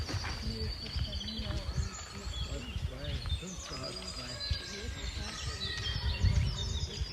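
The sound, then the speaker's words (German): Birds chirp outdoors along a hiking trail, with many quick, high calls overlapping throughout against a steady, low rumbling background. “Also jetzt nehmen wir ein bisschen Vogelgezwitscher für euch auf. Und das klingt so.”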